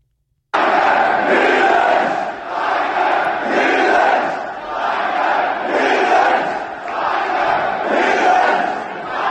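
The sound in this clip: A football stadium crowd chants in unison, the massed voices rising and falling in repeated rhythmic swells every couple of seconds, loud and sustained from start to finish.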